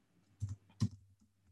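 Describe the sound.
Two soft keyboard clicks a moment apart, each a short dull tap, while typing out a phrase. The taps are quiet against near silence.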